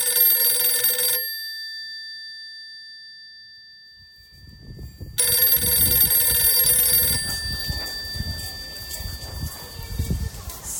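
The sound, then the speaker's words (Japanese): A telephone rings in two bursts of bright, trilling bell tones, the first short and the second longer, separated by a silent pause. Low background noise continues after the ringing stops. “さてさて、そんなことで電話がかかってきましたので中断してしまいましたけれども”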